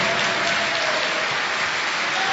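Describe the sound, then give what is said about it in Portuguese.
A church audience claps for Jesus during a worship service, a dense, steady wash of applause that stays loud and even from start to finish with no speech. “desocupe as suas mãos e aplauda ao Senhor Jesus com alegria.”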